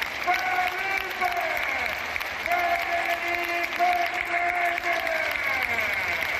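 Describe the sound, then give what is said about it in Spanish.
Loud, sustained applause and cheering from a basketball crowd at the Wizink Center greeting the team captain, steady clapping with whistle-like tones rising above it throughout. “Recibamos con un fuerte aplauso a nuestro gran capitán”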